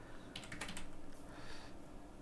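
Typing on a computer keyboard while entering a postal code into an online form: a quick cluster of light, clicking keystrokes, fairly faint, with no voices.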